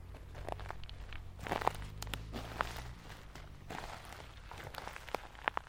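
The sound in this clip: A dog and its owner run through pine forest and moss, producing faint, irregular footfalls with soft crunching and rustling against a low background hum.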